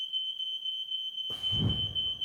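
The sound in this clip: A smoke alarm sounds in a house with a continuous, piercing, high-pitched electronic tone that stays steady throughout, while a rougher, lower noise joins partway through.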